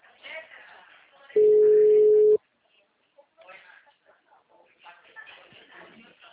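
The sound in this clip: A telephone ringback tone sounds once as a steady, mid-pitched, one-second beep while a call connects, with a voice talking before it and again after it.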